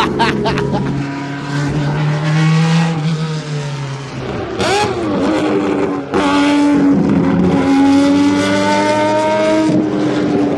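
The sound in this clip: Race cars in a support race at Le Mans roar past, their engines loud and continuous, with pitch sweeping up and down as they go by.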